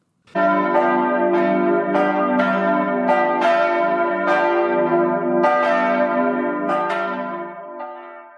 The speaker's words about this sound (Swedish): Klockorna har ringt in till det 23 avsnittet av Lillhälls